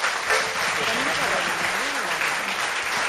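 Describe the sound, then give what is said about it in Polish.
Audience applause at a live radio concert, given for the lighting technician: steady, dense clapping throughout, with a voice faintly audible over it. “Brawa dla Krzysia.”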